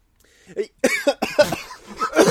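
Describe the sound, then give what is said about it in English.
A man coughing in a rapid run of several harsh, throaty bursts, loud and close together, with no talk over them. “I made him cough at that one.”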